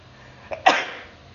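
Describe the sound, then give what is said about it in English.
A single sneeze from a person with a cold: a brief sharp intake of breath, then a loud burst that trails off over about half a second. “I think I have to sneeze.”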